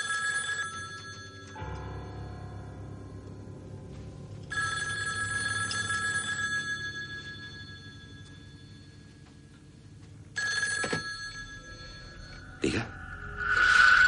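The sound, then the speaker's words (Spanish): A telephone ringing in a motel room at night: three bursts of bright, steady electronic ringing separated by quieter gaps with a low hum, followed by a brief sharp click near the end. “Por la noche, en la habitación del motel, suena el teléfono.”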